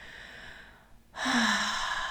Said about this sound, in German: atme gerne hier nochmal ganz bewusst ein und